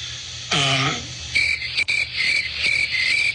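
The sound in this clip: A cricket-chirping sound effect plays during a political interview: steady, high, repeated chirps follow a short voiced sound and a sharp click.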